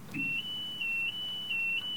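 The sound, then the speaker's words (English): An electronic alarm goes off in a radio studio. It gives a faint, shrill, high-pitched tone that sounds almost continuously and swells and dips in regular pulses. “it might have something to do with that alarm that's going off. Let's see if that alarm is still sounding.”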